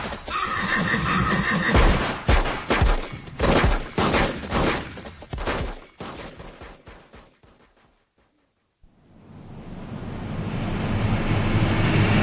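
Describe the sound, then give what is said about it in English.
Rapid gunfire as covering fire in a radio drama battle scene: many sharp, loud shots in dense volleys. The shooting breaks off into a short silence, then a wash of noise swells up. “Brave man. You go first. I'll give you a covering fire.”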